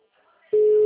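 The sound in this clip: A telephone call's ringing tone starts abruptly after a brief, faint lead-in. It then holds as one loud, steady, low-pitched tone until the end.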